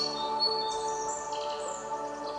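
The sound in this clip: Birdsong music plays for microgreens: steady sustained musical tones with quick high chirps and tweets over them, soft and continuous, with no talk.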